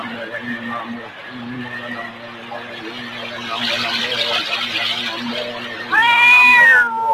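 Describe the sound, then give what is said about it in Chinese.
A frightened cat in an animated 1987 Cantonese cartoon, sheltering near a tent, gives a loud, sharp meow near the end over a busy, steady background. “猫仔，你定啲嚟，唔使惊噶吓”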